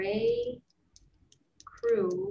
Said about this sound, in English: Oh yeah, let me type it in the chat.